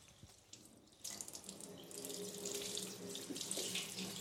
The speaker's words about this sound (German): Ich wasche jetzt den Deckel von der Pumpe ab, weil dieser Farbstoff, der ist so aggressiv, dass man den nicht mehr wegkriegt